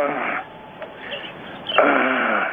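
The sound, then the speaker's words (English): Heavy, wheezy breathing from someone catching their breath: a loud, strained, voiced breath at the start, softer breaths in the middle, and another loud, groaning stretch of panting to the end. “What are you doing? I'm just catching my breath, if you don't mind.”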